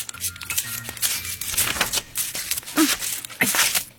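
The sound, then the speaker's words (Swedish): Paper drawing being crumpled up and cut: many dry, crackling rustles in irregular bursts, fairly soft and continuing throughout. “knycklar ihop teckningen i 1000 knyck. Sen klipper hon i knycklet och hoppas att det gör lika ont i teckningen som det gör i henne.”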